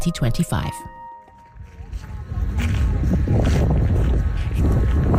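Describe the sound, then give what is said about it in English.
Strong wind roars across an exposed, flat 60-kilometer salt expanse, a steady low rumbling buffet on the microphone that swells and holds after a brief stretch of talk. “We're going on a journey to what sounds like a pretty windy place. Yes, well, you're pretty exposed when you're standing in the middle of a flat, white, 60-kilometer expanse of salt.”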